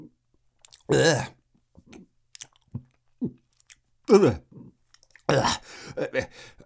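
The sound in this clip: Gulping down a brew: a few loud, wet swallowing bursts separated by quieter mouth clicks and small noises.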